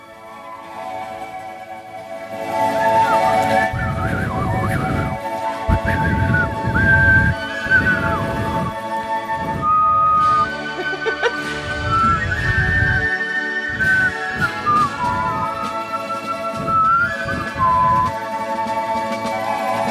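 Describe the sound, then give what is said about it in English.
People whistling a pop song, a wavering high melody that slides between notes over a fuller bed of lower sound, continuing steadily for the whole stretch. “can you believe that I didn't even play the song and that was just us whistling the whole time?”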